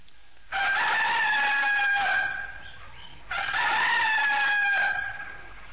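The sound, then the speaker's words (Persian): Rooster crowing twice, each crow a long, loud, drawn-out call, separated by a short pause. “این صدای چی بود؟ صدای خروس بود. آره، صدای خروس بود، خودشه.”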